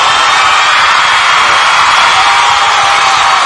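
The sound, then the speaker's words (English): Loud, continuous audience noise of clapping and cheering, a dense, unbroken roar that stays at the same level for about three and a half seconds. “Yes, yes, thank you for them claps. We need them claps.”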